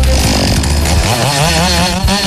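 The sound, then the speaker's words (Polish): Chainsaw running at a lumberjack competition, a loud continuous engine whine whose pitch wavers up and down as the throttle shifts, with no pauses. “Tniemy tą pilarką dwie następne konkurencje.”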